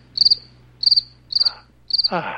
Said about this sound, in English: I need freaking crickets!